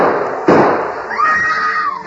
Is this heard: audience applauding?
no